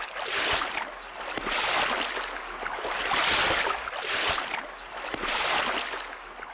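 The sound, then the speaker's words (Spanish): Rowing boats carrying pirates ashore to an island: a steady rhythm of broad, whooshing oar strokes through the water, evenly spaced and moderately loud, with constant soft water noise beneath. “El capitán decidió dejar que Long John y algunos de sus piratas bajaran a tierra en botes de remos.”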